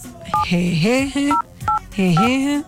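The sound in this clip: Telephone keypad tones as a password is entered: four short dual-pitch beeps spaced irregularly between stretches of a voice talking.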